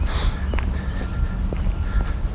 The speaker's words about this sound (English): I went from walking on a trail to now walking on pavement.